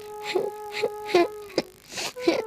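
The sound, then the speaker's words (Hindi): A schoolboy crying on a bench in a classroom: several rhythmic, moaning sobs in short bursts, fairly clear against a faint steady hum. “वो bench पर चढ़कर रोने लगा।”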